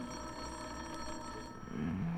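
A telephone bell rings in a steady, continuous trill, with no voices present.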